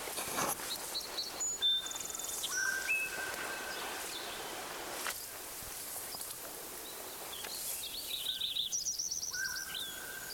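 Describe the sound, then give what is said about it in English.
Lincoln's sparrow singing in two faint phrases of thin, high, chirping notes, separated by a pause, over a soft hissing background. “Lincoln Sparrow number 1 is singing again.”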